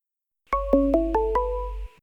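A phone ringtone for an incoming call plays a brief electronic chime of five quick overlapping notes that ring on and then cut off, loud and clear over a steady low hum, with no voices.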